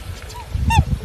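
Two honking calls of black swans at a nest with a second brood of chicks: a faint short call followed by a louder, bright, harmonic-rich honk over low rumbling.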